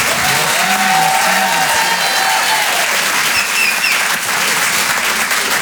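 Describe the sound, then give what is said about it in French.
Comedy club audience applauding a comedian after his set: loud, sustained clapping at a steady level throughout, with a few cheers mixed in near the start. “Faites du bruit, s'il vous plaît, pour Antoine Tartra.”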